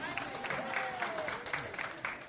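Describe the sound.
Audience applause: a dense, steady clatter of clapping lasting about two seconds, with voices mixed in.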